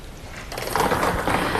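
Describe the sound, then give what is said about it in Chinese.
Clattering and whirring from a Jiangsu sports lottery drawing machine as it starts spinning the numbered balls for a seven-digit draw, a mechanical rattle that grows louder and then stays steady. “此刻，我们将正式开始本期江苏体彩七位数直播摇奖，请工作人员启动摇奖机。”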